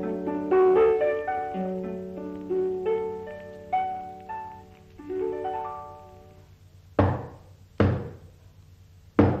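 Knocking on a door: three sharp, loud raps spaced about a second apart, following a short run of plucked, ringing musical notes.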